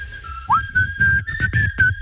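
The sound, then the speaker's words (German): Someone whistles a tune: clear, high sustained notes with a brief upward slide near the start, held fairly loud over soft, low, irregular thuds underneath. “Achtung, zu Ende pfeifen.”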